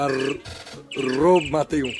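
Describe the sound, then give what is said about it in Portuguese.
A person imitates bird chirping with their voice, producing a few warbling, whistle-like chirps that sweep up and down in pitch, clear and fairly loud. “Lógico, eu só faço barulho de passarinho. Então aproveita e fala do Twitter em cima desse barulho.”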